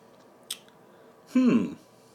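Tasting a sip of a 7.5% double malt beer: a faint click, then a short, wet slurping sip, quiet overall.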